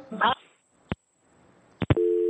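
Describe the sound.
A telephone busy signal after a caller's line dropped during a live call-in: a steady, bright electronic tone takes over at the end. Brief speech comes first, then a few sharp clicks just before the tone.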